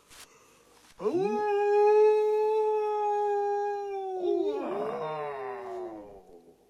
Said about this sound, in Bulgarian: Чуваш ли как вие върколака в долината?